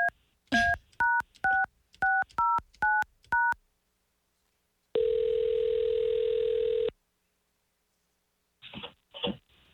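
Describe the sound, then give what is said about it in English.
A telephone keypad sends a quick run of several beeping dial tones, followed after a pause by one long steady ringing tone, then a few brief clicks as the call is placed. “All right, let's call Dawn.”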